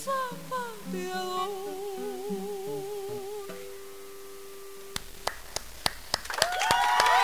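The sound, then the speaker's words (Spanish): Applause in a studio after a chamamé performance, following a sustained sung melody: a few sharp, separate claps ring out, then denser clapping swells loudly at the end. “Qué lindo, mira, te aplauden adentro del estudio, afuera del estudio.”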